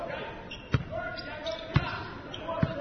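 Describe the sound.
A basketball is dribbled on the court during a basketball game, with three hard, evenly spaced bounces under continuous play-by-play commentary.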